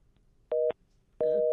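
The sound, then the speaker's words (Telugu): A busy tone sounds as a phone call to a call-in program disconnects: two steady mid-pitched electronic beeps with a short gap between them. The second beep is cut off at the end. “Disconnect అవుతుంది friends.”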